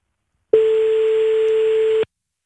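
A telephone ringback tone heard while calling someone: one steady, unbroken mid-pitched beep lasting about a second and a half, clear and moderately loud, with silence before and after and no talk.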